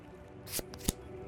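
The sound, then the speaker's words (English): Playing cards drawn from a deck: two brief, soft papery swishes close together over faint background noise. “Now we're gonna draw cards.”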